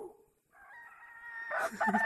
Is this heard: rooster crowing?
yes